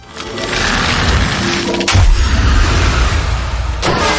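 A rocket attack in a video game produces two heavy booms, each cutting through a loud, roaring, noisy blast that carries on between and after them.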